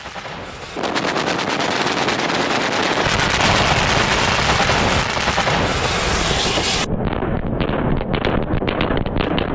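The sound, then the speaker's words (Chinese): Rapid, continuous gunfire from a regiment's air defence unit firing live rounds in a Xinjiang military drill. Dense, loud bursts run almost the whole clip after a short quieter start, and the texture changes slightly toward the end. “在新疆军区某团防空分队的全要素实弹射击演练中，面对敌强电磁干扰等突发特情，官兵沉着应对”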